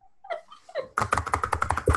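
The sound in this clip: Furious clacking of a computer keyboard, a fast run of sharp, closely spaced keystrokes that follows a brief voice at the start.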